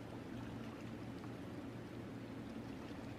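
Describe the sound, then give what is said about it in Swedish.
Three dehumidifiers bubbling in a storage corridor give a steady, faint watery gurgle and hiss, continuous and even with no pauses and no talk. “tre stycken luftavfuktare som står och bubblar”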